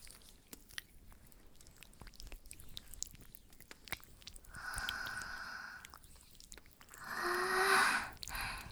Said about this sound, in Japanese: 今日はとても寒いですから、まずはオイルを私の手の中で温めさせていただきますね。